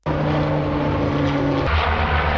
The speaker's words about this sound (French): Deux avions canadairs marocains, voilà la demande de soutien adressée par Lisbonne aux autorités de Rabat. Les canadairs, ce sont ces appareils amphibies capables de puiser plus de 6000 litres d'eau